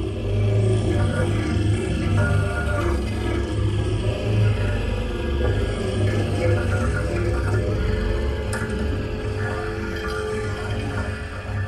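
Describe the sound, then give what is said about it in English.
A small light-up electric motor rubbed across a piece of plastic produces a dense, continuous buzzing drone with shifting pitches, loud and unbroken throughout. “And so as you rub that electric motor across that piece of plastic, it creates really interesting different pitches and droning sounds.”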